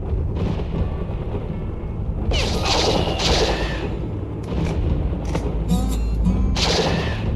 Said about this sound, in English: There are action sequences on rails where you just, like, shoot at the same two or three cowboy sprites.